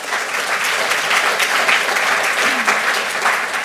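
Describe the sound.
Audience applause welcoming the speakers onto a stage: dense, steady clapping from many hands that holds at an even, loud level from start to finish.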